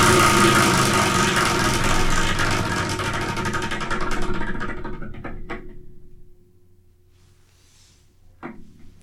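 A selection wheel spins with a dense whirring clatter that gradually slows and fades away, followed by a couple of sharp isolated clicks.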